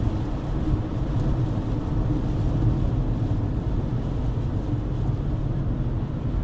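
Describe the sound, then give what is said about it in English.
Steady low road rumble from driving behind a big army truck in the rain, a dense, even roar of engine and tyre noise with no breaks and no voices. “sorry, I paused because I'm behind a, you know, like a big army truck. And there's like fully decked out army dudes in the back of the truck getting rained on,”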